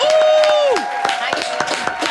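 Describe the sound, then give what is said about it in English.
An audience applauds and cheers for a comedy guest: a long whistle holds steady, then drops in pitch, while scattered claps sound throughout. “Let's make some noise for Miss Hasani Cromwell. Make some noise.”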